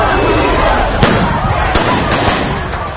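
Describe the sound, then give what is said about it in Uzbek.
A few sharp, scattered shots of automatic rifle fire as bodyguards shoot into the air to hold back a crowd, each crack cutting through a steady wash of crowd noise and voices. “Bakiyev qo'riqchilari osmonga qarata avtomatdan o'q uzishib uni panaga olishdi”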